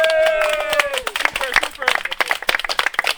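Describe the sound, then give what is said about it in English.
Audience applause: many quick, dense claps from a gathered crowd, starting just after a loud cheering voice whose pitch slides downward, then continuing steadily with voices mixed into the clapping. “You're real warriors, and just give us all a hand. Yay!”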